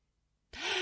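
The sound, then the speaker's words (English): A sudden loud, breathy inhalation like a gasp from a person during a breath-holding exercise bursts in after near silence and holds steady and strong to the end. “Can you not breathe quietly then?”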